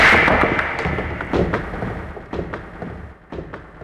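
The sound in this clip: Billiard balls clack and knock as a loud pool break scatters them across the table, a series of sharp, irregular clicks and thuds spread over several seconds.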